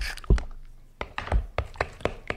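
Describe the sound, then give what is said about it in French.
Whole eggs are cracked into a preparation that will be whisked and poured over pears, heard as several sharp, crisp taps and cracks in an irregular rhythm, with small wet crunches after the knocks. “Et les œufs, on les met à quel moment ? Ah là, maintenant. En entier ou bien ? Oui, en entier.”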